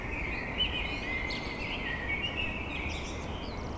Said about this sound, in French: Ce bruit blanc appartient aux merles de l'aube à l'aurore.